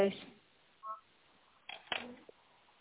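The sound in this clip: Electronic connecting tone while joining a phone call: a short, faint beep about a second in, followed by a few louder, brief bursts with voices nearby.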